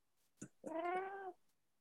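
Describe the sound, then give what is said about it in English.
A cat meows once at snack time, a long, clear, tonal meow that swells and holds before fading, with a brief softer vocal chirp just before it. “Hey, your kitty cat.”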